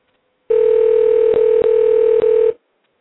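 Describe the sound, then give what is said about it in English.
A steady telephone dial tone while dialing out on an internet phone line. The tone holds for about two seconds, broken by three short clicks, then cuts off abruptly. “we are dialing out. Let's see what happens here.”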